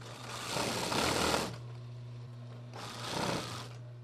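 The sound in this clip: A sewing machine whirs in two bursts over a steady electrical hum, in a shop that does custom embroidery and sewing machine repair.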